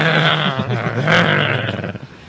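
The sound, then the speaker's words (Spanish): A human voice imitates a chihuahua growling with its lip raised: a loud, rough, throaty rumble lasting about two seconds that wavers and trails off at the end. “ahí tienen al chihuahua y nadie lo puede sacar. No deja que se acerque. No deja salir de la casa. Sí, le gruñe. Sube el labio,”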